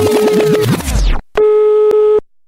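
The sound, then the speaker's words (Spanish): A telephone tone from a phone left off the hook: one long, unbroken steady beep with a single click partway through, following a short burst of other sound. “la Q tenemos un teléfono que siempre tenemos descolgado para que todo el público piense que siempre nos están llamando.”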